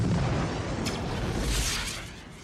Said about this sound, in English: Oh, they show the flare explode. You get the shower of sparks